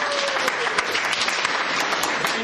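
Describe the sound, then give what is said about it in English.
Audience applause for the poets at a Mormon poetry slam: sustained, lively clapping from many hands with crisp individual claps, steady and loud throughout. “Let's give all of our poets another round of applause.”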